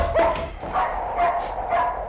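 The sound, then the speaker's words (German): A dog barks in four short, loud, yelping bursts with a bright, yippy tone that repeats at a fairly even pace over steady background noise. “Und nimm den verfluchten Köter mit.”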